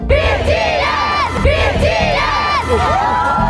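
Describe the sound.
A stadium crowd of concert fans cheers at a sold-out South Korean pop band show in Munich's football arena. The roar is dense and continuous, with high-pitched screams and shouts swelling in several waves.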